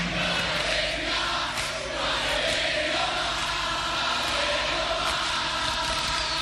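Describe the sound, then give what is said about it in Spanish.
Argentine rock concert crowd from the 1970s chanting: a dense, continuous roar of many voices that stays loud and steady throughout with no pauses. “Público argentino en los 70s.”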